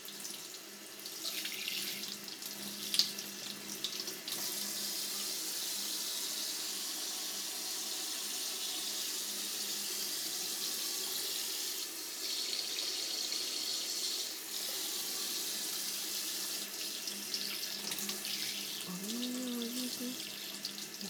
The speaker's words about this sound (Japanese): 右耳から、お耳の穴にお湯が入り込まないよう、そっとした勢いで